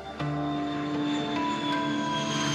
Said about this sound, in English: We're at Newark Airport, about to head overseas to try to find some answers.